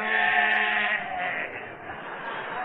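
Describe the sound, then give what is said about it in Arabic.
A sheep bleats in a drawn-out, wavering cry that stays strong at first, then eases slightly while still holding its tone, in a radio drama scene about a sheep bought for Eid al-Adha. “اهو يا ستي خروف ولا كل الخرفان.”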